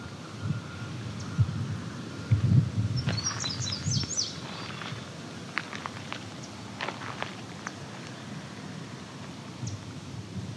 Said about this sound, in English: We got a song sparrow's come up.